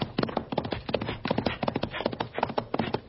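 A pony gallops in a rapid, steady rhythm of hoofbeats, a continuous run of thudding clip-clops heard alone without talk.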